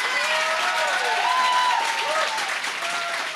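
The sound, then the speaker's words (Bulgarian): Church audience applauding during a sermon, with dense continuous clapping and voices calling out over it, loud and steady before easing slightly at the end. “О, ако ръкопляскаш, ръкопляскай, като че вярваш.”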